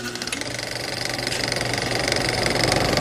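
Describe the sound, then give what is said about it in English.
A film projector runs with a continuous mechanical whir and a rapid, even clatter. The sound stays loud and steady throughout, with no voices. “Oh, you hear the projector sound.”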